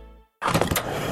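A fuel pump fills a car at a gas station: after a fading tone and a brief silence, a loud, steady rushing hiss begins abruptly and keeps going.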